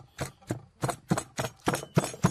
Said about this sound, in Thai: โขกตะไคร้ก่อนครับตะไคร้กระเทียมหัวหอมครับพอมันบุบๆ